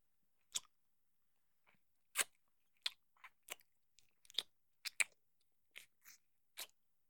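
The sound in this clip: Melon being chewed in many soft, wet, crunchy bites, spaced unevenly over several seconds with silence between them. Some bites are louder and sharper, others faint.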